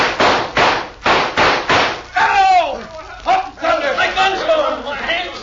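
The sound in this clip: Gunshots in a western shootout, aimed at the outlaws' guns: a rapid series of about five sharp, loud cracks at an even pace, followed by shouting voices and commotion.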